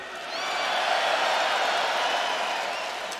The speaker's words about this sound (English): Welcome, everybody. Give it up for Gojira!